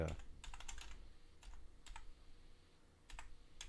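Typing on a computer keyboard: quiet, quick keystrokes come in short clusters separated by brief pauses, soft clicks over a faint background hum.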